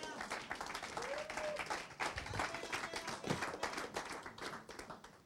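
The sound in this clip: Applause from a church audience during a French-language sermon in Québec: dense, steady clapping from many hands, with a voice speaking over it.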